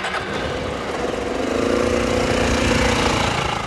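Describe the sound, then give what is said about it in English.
Engine of a 2007 Suzuki Burgman scooter running steadily, a busy, buzzing mechanical drone that grows a little louder after about a second and holds at that level. “got on his 2007 Suzuki Bergman.”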